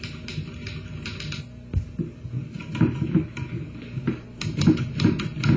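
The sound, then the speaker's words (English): Typing of papers, with many quick, irregular key clicks and clacks in a steady working rhythm and no talking. “Will you type some of these papers here? Oh, yes, Joe. I'm going to copy them.”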